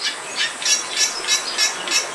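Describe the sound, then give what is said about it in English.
Bali Myna song: a steady series of bright, rasping high-pitched bursts repeating at an even rhythm over a constant hiss, with no voices. “This example of a Bali Myna is from Cornell University's archive.”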